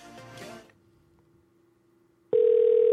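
Ringing tone heard while calling a cell phone: a faint steady tone runs through the middle, then a much louder sustained tone starts abruptly near the end and holds.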